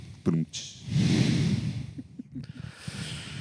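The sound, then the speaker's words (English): Heavy breathing straight into a microphone: a sharp sniff followed by a long, rushing exhale, then a few softer, uneven breaths and puffs, loud and close. “I'm just going to breathe real heavy into the mic because I'm upset with myself.”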